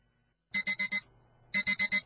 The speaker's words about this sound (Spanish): ¿Necesitas más alarmas para despertar?